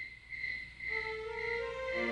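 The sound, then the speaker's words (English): Crickets chirp in the evening in a steady, high-pitched trill that runs unbroken through the whole clip at a moderate level, with no voices. “when the evening came, we listened to the crickets”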